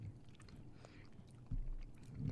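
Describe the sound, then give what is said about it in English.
Soft, muffled chewing of a hard gummy candy: quiet, uneven squelching and low thuds that grow somewhat heavier in the second half, with no clear speech over it. “All right, I'm trying the red one. All right, here we go. It is like a hard gummy. Mm-hmm. Okay, I got the yellow one in.”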